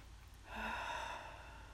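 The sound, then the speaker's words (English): A deep clearing breath drawn in, one soft, slow inhale that swells out of near silence and eases off after about a second, with no talk. “begin here with a clearing breath to breathe in nice and deep.”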